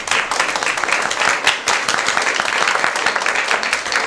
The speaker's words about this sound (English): Again, we'd like to thank the candidates and, of course, our wonderful studio audience. Give yourselves a big hand.